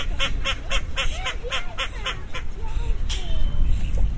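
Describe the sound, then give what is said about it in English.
Many ducks bathing in water at a farm quack in a quick, rhythmic string of nasal calls, followed by a few lower honking calls over a constant noisy background. “Let's hear lots of ducks, and they're all bathing in the water and chatting away.”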